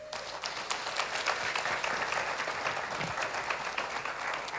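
A church audience applauds to welcome guests at a Father's Day morning service. The clapping is continuous, even and fairly soft, a steady wash of many hands with no pauses.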